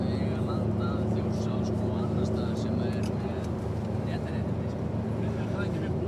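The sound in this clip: Steady engine and road rumble from a jeep driving along, heard from inside: a continuous, unbroken low drone with a constant noisy hiss over it throughout.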